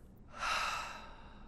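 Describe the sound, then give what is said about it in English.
A single slow exhale through the mouth during a guided breathing exercise, a soft airy whoosh that swells quickly and then fades over about a second, heard alone without talk. “in through the nose, filling up all the levels of your lungs, including up top. Hold, and then out through your mouth.”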